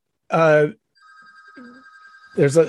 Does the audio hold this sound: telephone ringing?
yes